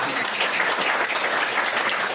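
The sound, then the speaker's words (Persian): Applause from an audience after a talk, a dense, steady wash of clapping that holds at an even level throughout. “یه دست بزنید”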